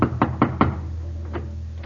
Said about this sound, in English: He knocks on the front door.